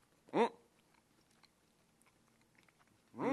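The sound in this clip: Crunchy bites into a fried miso cutlet on a skewer, coated in thick miso sauce: two short, crisp crunches separated by a quiet pause with faint rustling.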